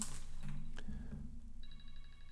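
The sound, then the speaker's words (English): A mobile phone ringtone starts partway through, a bright pulsing electronic tone with stacked harmonics, heard over a low steady hum. “My phone was ringing there, so there was obviously an edit.”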